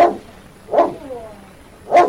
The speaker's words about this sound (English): as soon as I picked up the leash, it's just been like no time has passed between us. So the bond that we have is really an incredible thing. And Rex, pretty pleased too.